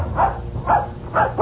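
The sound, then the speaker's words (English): A small dog barks in a few short, yappy, mid-pitched bursts at an even, steady rhythm, fairly loud and alone with no talk. “I'm going to introduce you to my puppy dog, Mr. Blister.”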